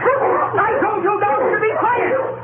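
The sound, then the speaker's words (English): Dogs bark and yip in an excited, overlapping jumble. The yelps are continuous, with rapidly wavering pitch, thin in tone and steady in loudness throughout. “I told you dogs to be quiet!”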